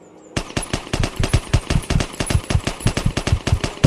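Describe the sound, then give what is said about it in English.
Automatic gunfire breaks out as a gun blasts away in rapid, continuous bursts of sharp, punchy shots. The fire starts abruptly after a brief quiet moment and stays loud and steady to the end, many rounds in quick succession with no voices. “Yeah! Cut them in half! Hey, shoot that one.”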